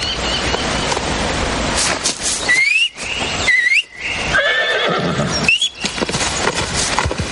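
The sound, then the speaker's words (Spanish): A whistle calls a horse, which trots up and neighs, in a medieval setting: a few short, high whistles over steady hoof and background noise, with neighing. “El joven llama a su caballo silbando y este se acerca al trote.”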